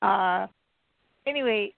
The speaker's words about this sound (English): That's my senior citizen dog. She's 15, only has 3 legs.